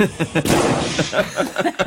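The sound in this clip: A firecracker explodes in an operating room with one sharp, loud bang that rumbles briefly amid people talking.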